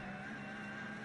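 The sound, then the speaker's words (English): Engine of the number 900 Porsche 911 GT3 Cup race car, a steady, faint droning tone with layered harmonics that holds through a brief moment. “Number 900, Porsche 911 GT3 Cup car is the noise you can hear.”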